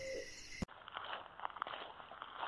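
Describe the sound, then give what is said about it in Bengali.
Hoots of a black owl calling overhead: a few short, faint calls over a steady, noisy hiss, coming after a brief, different sound that cuts off abruptly. “একটি কালো পেঁচা মাথার উপর দিয়ে ডেকে গেল”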